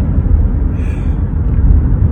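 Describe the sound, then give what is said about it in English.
Road noise from a moving car fills the cabin, a steady, loud low rumble with a broad hiss above it that runs unbroken and without talk. “I'm going to stop recording because I'm driving and it's not super safe to be recording and driving at the same time”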